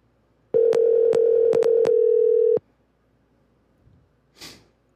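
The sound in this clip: A single ringback tone on an outgoing phone call, a steady mid-pitched buzz lasting about two seconds and broken by faint clicks, followed by near silence and a brief soft breath.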